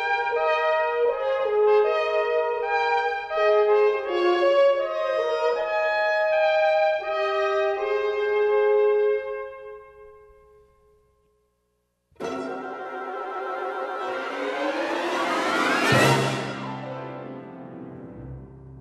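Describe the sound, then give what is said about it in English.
An orchestral sneeze from Kodály's Háry János: soft orchestral phrases thin out and fade to a brief silence. Then a loud full-orchestra chord swells upward to a sharp burst and drops away. “And what you heard there was no less than an orchestral sneeze. It's quite famous, actually. It's from Harajanes by Zoltán Kodály, and it, in Hungarian folklore, implies that what is to follow is true.”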